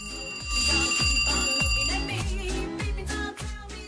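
A phone rings with a repeating electronic ringtone, steady high tones over a regular thumping pulse that keeps an even rhythm.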